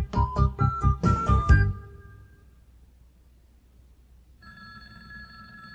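A telephone bell rings loudly in a rapid metallic trill lasting under two seconds, followed by quiet, then a steady tone toward the end.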